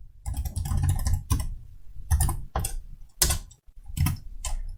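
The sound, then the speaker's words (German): Fingers typing a Python script on a computer keyboard: quick bursts of clicking keystrokes in an irregular rhythm, broken by short pauses. “Meine bevorzugte Möglichkeit ist, ein kleines Python-Skript zu schreiben, und das ist, was wir jetzt tun.”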